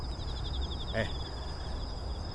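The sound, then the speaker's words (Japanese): Autumn insects chirping in a steady, rapid, high-pitched pulsing trill that runs unbroken throughout, over a low, soft background rumble. “今皆さんに聞いていただいてるね、放送でも多分虫の音はいっぱい入ってると思うんですよ。”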